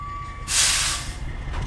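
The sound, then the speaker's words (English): Air brakes on a large black tractor-trailer truck release a sudden loud hiss that swells and then tapers off. A steady high tone sounds just before the burst. “And we're looking at a big black tractor-trailer truck.”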